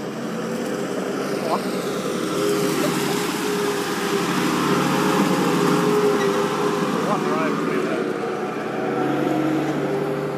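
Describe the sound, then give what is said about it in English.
Steady, loud engine drone of a very large excavator working a site being restored to farmland, a continuous rumble with a constant hum that holds throughout without clear breaks. “Huge digger. That is crazy huge.”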